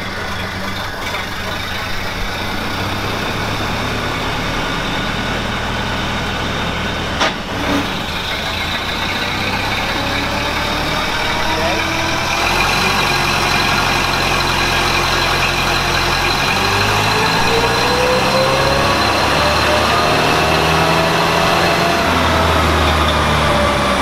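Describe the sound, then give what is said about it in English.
A car engine fitted with an upgraded high-compression head runs on a dynamometer. It makes a loud, steady drone throughout, and its pitch climbs gradually through the second half. “Okay, so we're on the dyno.”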